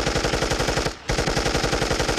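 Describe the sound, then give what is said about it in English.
Machine gun fire aimed at emus, a loud, rapid and evenly spaced rattle of shots that breaks off briefly in the middle and then resumes at the same steady rate. “At the first attack, the machine gun fired from 1,000 yards away.”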